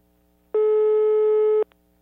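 A single loud, steady ringback tone on an outgoing phone call to a repair workshop lasts about a second, ending with a faint click.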